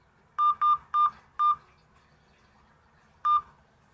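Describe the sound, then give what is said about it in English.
Telephone keypad tones entering a voicemail password: five crisp, evenly pitched beeps. Four come in quick succession, then a pause, then one final tone. “Please enter your password, then press pound.”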